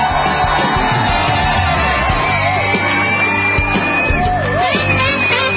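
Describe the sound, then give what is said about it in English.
An audience cheers, whoops and yells, likely applauding too, as a guest author of a new book is welcomed on stage. The crowd noise is loud and steady for the whole stretch, with high rising whoops and shouts cutting through it. “Ladies and gentlemen, put your hands together and welcome James Rosen.”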